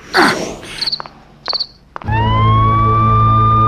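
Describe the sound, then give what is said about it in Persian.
An ambulance siren winds up, its tone rising quickly and then holding loud and steady, after a few short high chirps. “دیگه چرا آمبولانس اومده؟”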